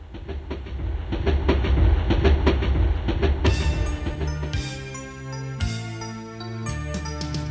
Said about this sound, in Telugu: బండి వస్తోంది పక్కకి పక్కకి జరగండి ఆగినాక ఎక్కండి